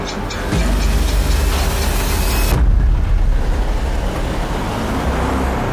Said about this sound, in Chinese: 哎，车怎么走了？